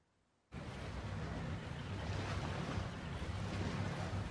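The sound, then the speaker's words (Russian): Rushing water and wind from a sailing boat. The sound starts abruptly after a brief quiet moment, then continues as a loud, even wash with a low rumble underneath. “На лодке плывет Арианна.”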